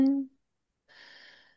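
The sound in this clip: A slow, deep breath during a relaxed guided breathing exercise: a brief voiced sound opens, then a pause, and then one soft, airy, hissing exhale that fades out gently.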